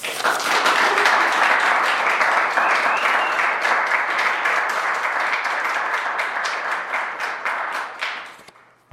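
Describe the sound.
Steady audience applause welcoming a speaker for a talk. Dense, continuous clapping holds evenly, then fades out at the end.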